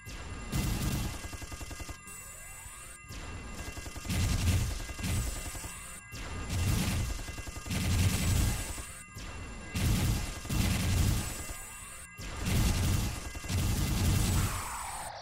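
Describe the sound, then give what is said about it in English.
A satellite weapon attack in a video game: heavy crashing blasts and rattling impacts repeating in bursts about every two seconds, loud and dense across the whole stretch. “Enjoy the new weapon I have, the satellite. Have fun! Satellite time.”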